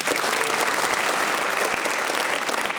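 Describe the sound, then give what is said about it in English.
A studio audience at a comedy panel quiz show applauds, with dense, enthusiastic clapping that holds at an even level throughout. “Feel the enthusiasm from our studio audience there.”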